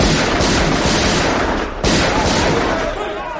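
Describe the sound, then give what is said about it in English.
Dynamite explodes amid gunfire during a fight aboard a ship stuck fast on a reef. A dense, loud roar of blasts and shots runs throughout, with a short dip near the middle before it surges again. “I've got dynamite here. Any use? Good thinking. 100. Fire!”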